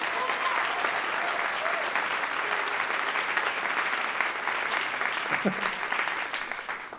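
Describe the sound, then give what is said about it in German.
Audience applause at a comedy show: steady, dense clapping runs for about seven seconds and tapers slightly at the end. “Euer Applaus!”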